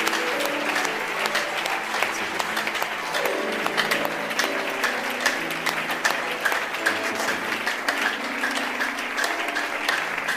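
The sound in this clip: A church audience applauding and cheering during a worship service, with many hands clapping in a continuous, busy wash that stays at a steady level throughout.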